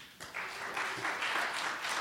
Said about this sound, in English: Clap your hands and give him the glory.